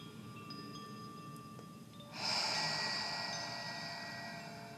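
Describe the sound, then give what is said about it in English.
A long, deep inhale during a pranayama breathing exercise: quiet at first, then a soft, steady rush of air begins partway through and fades slowly. No one talks. “Inhaling.”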